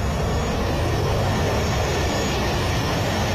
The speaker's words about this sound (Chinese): 总司令，您看，飞机回来了。从云层里像箭一样快的，